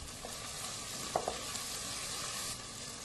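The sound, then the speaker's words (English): Soft, steady sizzling as chopped tomatoes go into frying onions with ginger garlic paste and turmeric, broken by a couple of faint clicks from stirring. “To the fried onions, add some ginger garlic paste, a little turmeric. To this, add chopped tomatoes.”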